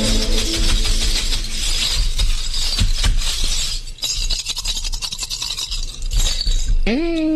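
Bottle caps thrown and clinking together in a dense, loud rattle of small hard clicks that runs for several seconds, then thins into scattered separate clinks.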